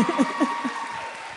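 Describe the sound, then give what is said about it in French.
Audience applause at a live comedy show, a dense, steady patter of clapping that runs through the whole stretch, with a speaking voice briefly over it at the start. “On peut les applaudir, hein?”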